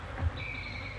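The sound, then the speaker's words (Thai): A housefly buzzes in a steady, thin, high whine for about a second, with a brief low thump near the start. “แมลงวันมันก็เป็นสัตว์ชนิดหนึ่งเรียกว่าสัตว์โลก”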